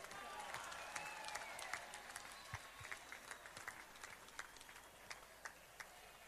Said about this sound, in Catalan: I demano per la Junta, fem un gran aplaudiment.